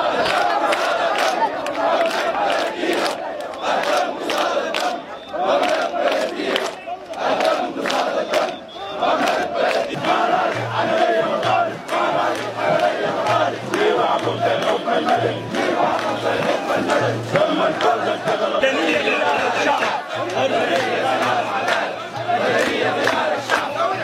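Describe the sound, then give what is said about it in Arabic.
Thousands of protesters at the sit-in before the army general command in Khartoum chant slogans after Friday prayers, a loud, dense roar of rhythmic shouting that carries on without pause for the whole stretch. “وسير آلاف المعتصمين موكبا ضخما عقب صلاة الجمعة أمام القيادة العامة مطالبين المجلس العسكري بتسليم السلطة لقيادة مدنية، ورددوا هتافات:”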